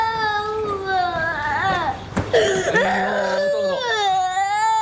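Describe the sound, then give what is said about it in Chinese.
A child cries and sobs in high, wavering wails that rise and fall in pitch, with a brief catch of breath midway before the crying resumes. “不哭不哭不哭不哭！哎呦，脸上疼不疼啊？啊？哎呦，不哭啊，擦擦眼泪啊，擦擦眼泪。”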